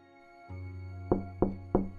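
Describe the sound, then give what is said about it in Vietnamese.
Three sharp knocks of someone banging on a boarding-room door, evenly spaced and fairly loud, over a steady low droning tone. “Tiếng đập cửa phòng trọ khiến cho tôi giật mình tỉnh dậy.”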